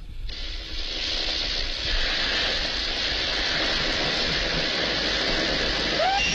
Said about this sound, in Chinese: 门外远远地开过来一辆机车